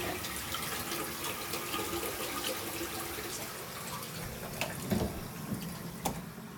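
A toilet flushing by itself while someone is pulling their clothes back on, heard as a faint, steady watery rush that stays even throughout, with a couple of small knocks near the end.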